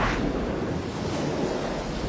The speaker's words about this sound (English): Seconds later, the cell began to fill with water.